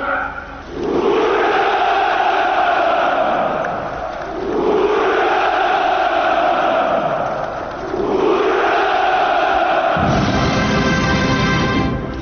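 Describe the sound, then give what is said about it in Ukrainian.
A large crowd at a Victory Day celebration shouts a drawn-out Hurrah three times. Each loud, swelling massed cry lasts several seconds before the next one rises. “Апогеєм святкування був заклик «Ура» і спів гімну Росії під музику колишнього гімну Радянського Союзу.”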